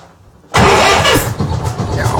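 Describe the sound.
An old tractor engine cranks and catches abruptly, then runs loud and rough at a steady idle.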